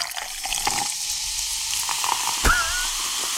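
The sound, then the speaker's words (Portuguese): A freshly opened bottle of cheap champagne foams heavily, giving a steady, soft fizzing and crackling hiss throughout. “Vou abrir uma champanhe aqui, tá bom? Bora! Deixa eu abrir aqui.”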